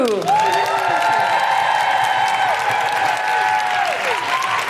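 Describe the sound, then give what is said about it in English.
An audience applauding and cheering as a stand-up comic is welcomed to the stage, loud, steady clapping throughout with drawn-out whoops sliding over it. “But please, welcome to the stage and put your hands together and stamp your feet and do all sorts of woohooing things for Jessica Foster Q.”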